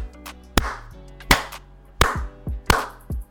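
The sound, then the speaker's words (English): Slow hand claps imitate the dutiful clapping at a school awards ceremony for top students, with several loud, sharp claps evenly spaced and fainter knocks between them. “and clapping for people pretty much continuously.”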